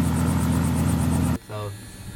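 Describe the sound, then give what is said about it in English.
A Robinson 44 four-seat tourist helicopter roars with a loud, rhythmic rotor chop and steady engine whine that cuts off abruptly, after which a voice speaks briefly. “So today we're in a Robinson 44, which is a four-seat helicopter.”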